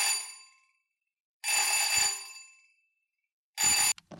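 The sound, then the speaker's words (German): A telephone rings with an incoming call at night in 1938, giving three bursts of bright, harmonic bell tone separated by silent gaps. The last burst is short and cut off, and no one speaks. “Hans Flügel, der Kreisleiter der NSDAP in Friesland, bekam morgens gegen 1:30 einen Anruf von der Gauleitung in Oldenburg.”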